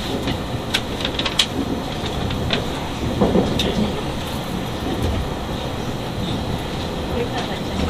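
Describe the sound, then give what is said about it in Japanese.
A train pulls into its terminal station at Okayama with a steady rolling rumble. A few faint rail clicks sound early on, and muffled voices are heard at times. “まもなく終点の岡山に着きます。”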